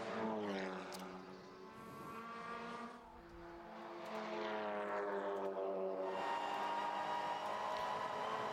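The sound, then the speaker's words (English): A race car's engine howls past on a road course during sports-car qualifying, loud and harmonic. The pitch sinks, dips briefly, then climbs high again as the engine revs through the gears. “So that is the 37 car of Matt Pombo going across the line with the 123.671 to take the fastest lap at the moment.”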